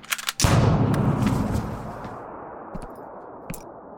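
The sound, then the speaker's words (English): A single loud gunshot cracks out during an armed standoff, then rolls into a long, heavy rumble that fades away over about two seconds. “Fucking shot me! I shot Dusty, who was drawing on me. You just happened to be in the way of my bullet.”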